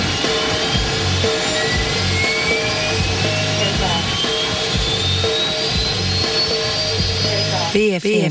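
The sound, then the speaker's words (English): An airplane taking off, with a loud, continuous jet roar and a high whine that slowly climbs in pitch, over repeating lower droning tones throughout. “The card should be read carefully before takeoff. Takeoff.”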